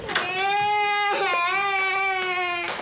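A child cries loudly in a sustained, tonal wail with brief catches between breaths, the pitch dipping slightly mid-cry before holding steady.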